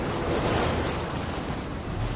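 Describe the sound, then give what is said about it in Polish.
Continuous roar of trucks passing one after another on a road: a broad low rumble with a rushing, wind-like hiss, steady in loudness throughout, with no talk. “Tir za tirem.”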